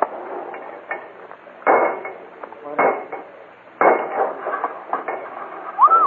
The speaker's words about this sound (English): Crack the next box.